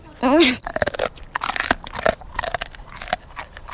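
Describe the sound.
Crunching and chewing of a bravery treat given to a pet patient at a vet's practice in a children's radio play: many crisp, irregular bites following a short voiced exclamation, with quieter crackles continuing throughout.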